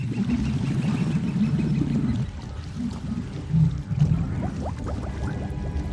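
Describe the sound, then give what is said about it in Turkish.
Hippopotamuses in the water make a low, churning watery rumble that rolls continuously, with a couple of louder deep swells near the end. “Ne oluyor? Su aygırları. Afrika'nın en öldürücü hayvanlarıdır.”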